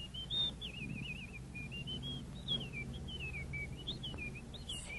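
Warbling bird chirps dubbed over a 1970s film scene with a stuffed bird: a thin, wavering whistle trills almost continuously above a low, steady hum.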